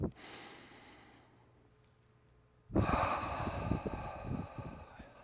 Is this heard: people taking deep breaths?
yes

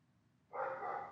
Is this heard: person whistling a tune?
no

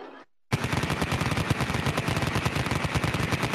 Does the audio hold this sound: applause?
no

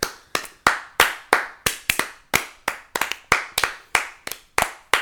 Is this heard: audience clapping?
yes

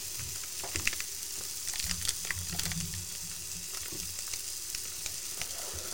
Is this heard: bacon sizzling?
yes

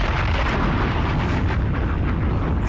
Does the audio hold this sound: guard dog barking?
no

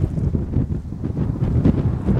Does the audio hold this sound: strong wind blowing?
yes

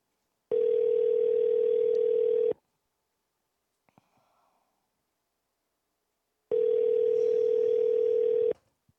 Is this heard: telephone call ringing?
yes

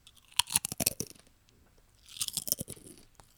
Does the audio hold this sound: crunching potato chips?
yes

